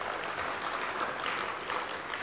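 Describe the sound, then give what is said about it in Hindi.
Applause from an audience, a dense continuous patter of clapping that stays fairly faint and even throughout. “तो क्यों ना ऐसे संतों के लिए एक बार जोरदार ताली हो जाए।”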